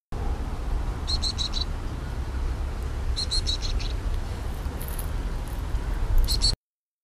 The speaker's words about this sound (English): Cameron sent me this clip of black-capped chickadee chicks